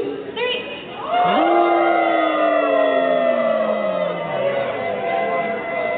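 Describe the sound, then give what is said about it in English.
Concert audience howling like wolves, many voices imitating the animal in one long wail that swells quickly and then slowly sinks in pitch over several seconds. “You have to howl like a wolf on the count of three.”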